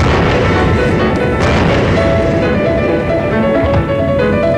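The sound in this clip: Explosions from bombing in battle: a dense, continuous barrage of heavy booms and rumbling blasts, loud and unbroken throughout.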